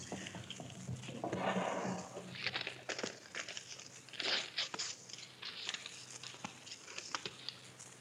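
A sealed paper envelope is opened with crinkling, rustling and tearing paper. The sounds are fairly soft and irregular, with a denser crumple early on followed by scattered sharp rips and crackles, and no voices.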